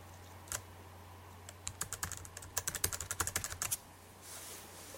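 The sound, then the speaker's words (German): Keys clicking on a computer keyboard as Command and R are pressed: one soft click, then a quick burst of many sharp, dry keystrokes, fairly faint against a low steady hum, fading to quiet. “Jetzt drücke ich Befehlstaste R.”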